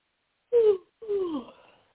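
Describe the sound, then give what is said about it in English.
A big deep breath during a guided release meditation, let out as two soft, voiced sighing exhales, each gliding downward in pitch, the second longer and trailing off, with silence around them. “Ooh, let's take a big breath.”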